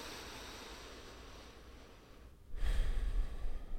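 A deep breath taken during a calming exercise: a soft airy hiss swells into a louder, rushing breath near the end, with no talk.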